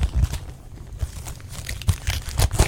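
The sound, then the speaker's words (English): Gift wrapping paper on a Costco present is torn open in several crinkly ripping bursts, with rustling between the tears. “Just rip it open. Oh, way to just ruin my present wrapping.”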